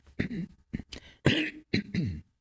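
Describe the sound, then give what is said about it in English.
Coughing comes in a short run of about five harsh, rough bursts separated by brief gaps, fairly loud and alone, with no talk. “Sorry for the coughing.”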